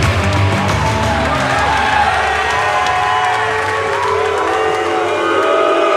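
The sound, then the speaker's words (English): A live show audience boos, a loud, continuous crowd sound full of low, drawn-out voiced groans mixed with scattered shouts and whoops, easing somewhat in the final seconds. “My immediate reaction is that they're booing at me, of course.”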